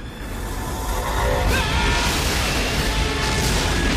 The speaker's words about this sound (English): He looks down in dismay at the explosions consuming his collector. The flames gush higher and higher.